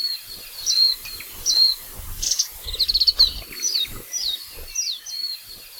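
Many thin, high-pitched chirps from a white-eye, a tiny green and gray bird common in Hawaii, come in short separate calls with a quick rapid run of notes in the middle, clear over quiet background.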